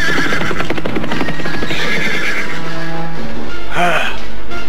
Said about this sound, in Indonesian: Dari kejauhan muncul serombongan laki-laki yang berkuda cepat mendatangi mereka.